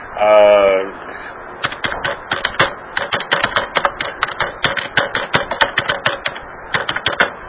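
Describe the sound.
Computer keyboard typing: a rapid, irregular stream of many crisp key clicks that follows a brief voiced sound at the start.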